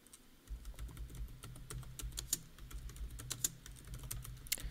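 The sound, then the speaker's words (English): Typing on a computer keyboard produces many quick, quiet clicking keystrokes in an irregular rhythm over a low, steady hum. “Listen to me type.”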